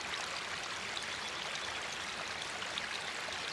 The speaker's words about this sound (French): L'eau suit son élan, ruisselante depuis les sommets de la montagne.